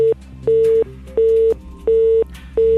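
A telephone busy signal on a failed phone connection repeats a steady mid-pitched tone in even on-off pulses, each beep about a third of a second long, with faint line noise underneath.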